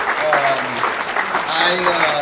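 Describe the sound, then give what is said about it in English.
Audience applause for a company founder at a business gathering, a dense, steady clatter of clapping throughout, with voices audible through it. “Round of applause again for Bruce for Printavix.”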